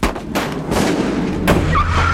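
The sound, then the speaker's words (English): Gunfire from troopers shooting at a fleeing car in an animated chase scene: a few sharp, loud bursts break through a steady roar of vehicle noise. “They're still firing! We've gotta shake them!”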